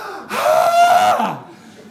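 A person imitates the desperate gasp of a first breath after surfacing from underwater: one drawn-out, loud, voiced inhalation with a strained, slightly tonal edge, fading into a quieter breath.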